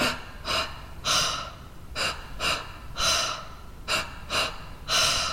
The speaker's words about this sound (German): Sie besteht aus 2-mal einatmen am Stück, 1-mal ausatmen. Alles passiert durch den Mund. Und der erste Einatmer ist in den Bauchraum und der zweite in den Brustraum.